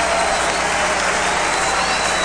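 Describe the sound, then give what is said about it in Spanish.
An audience applauds during worship, a loud, dense and unbroken wash of clapping hands that stays level across the whole moment. “Aplaudimos.”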